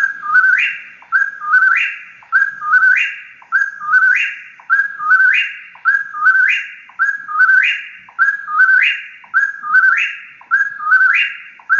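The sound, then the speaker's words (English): A whip-poor-will sings its three-part whistled call over and over at a steady pace of about one call per second. Each clear, loud phrase ends on an upward-swinging note, with silence between phrases. “Whippoorwill.”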